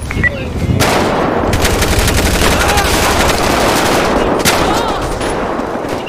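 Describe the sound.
Loud gunfire in a police video game, with rapid, overlapping shots and automatic bursts that crackle almost without pause through the whole stretch.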